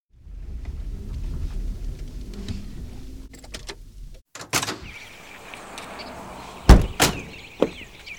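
Car doors thud and slam as two men in orange overalls climb out of a large white car, with a few clunks midway and two sharp, loud slams in quick succession near the end over a steady low rumble.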